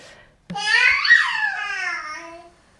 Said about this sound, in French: Ça, c'est un bébé de 5 mois qui fait un peu tous ces trucs d'exploration. Il est tout seul.